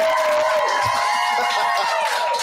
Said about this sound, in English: We are live streaming from the Comedy Frequency Studios in the bunker on Brazos, and we're here with a fantastic studio audience. Y'all make some noise real quick.